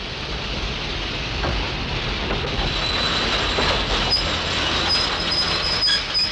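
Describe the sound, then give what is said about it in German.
A train in London passes just beneath a window, its wagon roofs barely a meter below, making a steady, loud rolling rumble with clatter of wheels on rails and a high, thin wheel squeal in the later part. “Schieb das Fenster hoch. Ja. Da kommt ja schon ein Zug.”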